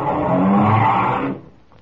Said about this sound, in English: The car starts up again.